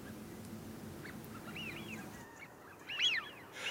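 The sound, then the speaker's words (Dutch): Wigeon ducks gathered on ice in a winter polder near Ouddorp give a few soft, high whistling calls over a low rumbling background, with the loudest whistles near the end. “En die smieten die gaan dan lekker allemaal bij elkaar zitten. Dat doen ze normaal gesproken al, maar als er ijs ligt nog meer. En dit is een mooie plak smiente,”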